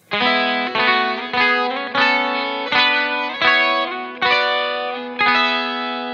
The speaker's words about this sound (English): So again, I use the Dimension C to just push, you know, a little bit of the parts there. And I love this part. I'm going to play it slowly just so you can hear the voicings are really cool.